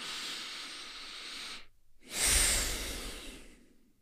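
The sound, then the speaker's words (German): A deep breath in and out during a guided eyes-closed exercise: a long, steady, airy inhale, a brief silent pause, then a louder breathy exhale that gradually fades away, with no voices. “Atme einmal tief ein und aus.”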